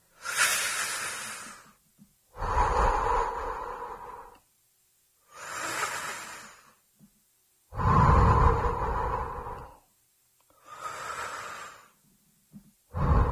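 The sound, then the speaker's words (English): Slow, deliberate breathing: three long, soft hissing inhales through the nose alternate with louder, breathier exhales through the mouth, blown out like extinguishing birthday candles, with pauses between breaths. “now, I'm breathing in my nose very slowly and out through my mouth like I'm blowing out birthday candles.”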